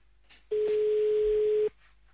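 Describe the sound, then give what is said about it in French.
A telephone call placed to an Audi car dealership rings once: a single steady pure tone lasting a little over a second, quiet and clean, with silence before and after. “C'est parti, on appelle Audi pour voir si eux sont plus ouverts.”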